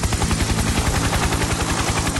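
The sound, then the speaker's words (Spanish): A helicopter rotor beats in a loud, rapid, steady chop of low thumps that continues throughout with no voices. “Este es el helicóptero de Factor.”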